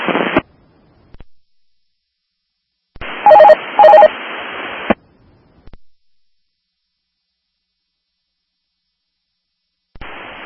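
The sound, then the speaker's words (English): Two telephone dialing tones cut into an air traffic radio channel, sounding in quick succession inside a crackling transmission. Short bursts of radio squelch come before and after, separated by silence. “someone was trying to dial over you”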